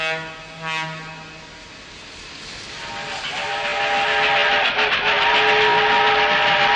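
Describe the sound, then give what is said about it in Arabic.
A fast train's whistle sounds at the start. The rumble of the moving train then builds steadily louder, and the whistle tone returns over the rolling noise. “يلا نركب هذا القطار السريع”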